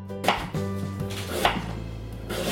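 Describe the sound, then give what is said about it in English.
A knife chops sweet potato into small dice on a kitchen cutting board, giving a few crisp, separate knocks over a low steady background. “Once you're finished peeling, you'll start to chop that sweet potato.”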